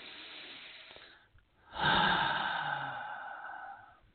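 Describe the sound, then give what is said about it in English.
A person takes one big deep breath: a soft airy inhale, a brief pause, then a longer and louder sighing exhale that slowly trails off. The whole breath stays quiet. “All right, everyone, let's take a big deep breath.”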